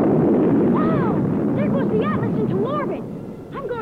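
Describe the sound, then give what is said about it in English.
Toy rocket launch after a countdown, the Remco Project Yankee Doodle Test Center set: a sustained broad rushing roar with warbling whistle tones that sweep up and down. The roar holds steady, then eases off near the end. “All's ready! Push the launching lever and begin the countdown. 10, 9, 8, 7, 6, 5, 4, 3, 2, 1, 0!”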